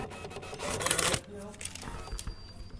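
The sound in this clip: Gift paper crinkles and rustles as a book is wrapped, a dense burst of crackling followed by softer, scattered paper sounds, with voices nearby.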